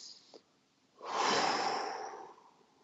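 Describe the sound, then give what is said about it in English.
A single long, deep breath taken during a guided relaxation exercise, a steady breathy rush that swells and then slowly fades, heard on its own after a soft tap. “just sit back and close your eyes, take a deep breath.”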